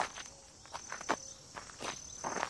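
Soft footsteps walk into a castle courtyard, a few quiet, unevenly spaced steps over a thin, steady insect chirp, with no voices.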